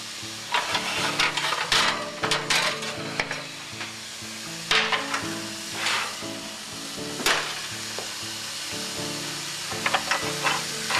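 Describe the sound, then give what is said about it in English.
Kasha grains are stirred in a pan after sautéing to dry them out and keep the kernels separate: soft sizzling under repeated scraping and swishing strokes, with a few louder sweeps standing out. “And the reason why you have to stir it like this several times is you don't want it to add up in clumps. You want each kernel to be separated.”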